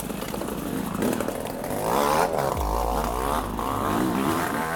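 Two-stroke motorbike engine running with its front exhaust pipe ripped out of the barrel during an off-road event, giving a loud, raw, rasping buzz whose revs waver up and down throughout.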